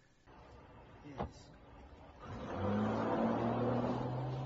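A car engine, heard as a short knock followed by rising engine noise that settles into a loud, steady hum with low, even tones.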